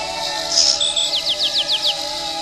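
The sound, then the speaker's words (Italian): Small birds sing in the countryside, giving a quick run of short, bright, descending chirps over a steady tonal background drone. “è un bel clima, gli uccellini che cantano, la campagna, dove c'è l'erba”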